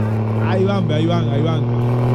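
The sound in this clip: A turbocharged car engine revving, heard as a steady, loud low drone with a man's excited voice talking over it throughout.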